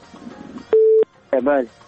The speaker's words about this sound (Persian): متاسفانه که تماس دوست ما قطع شد.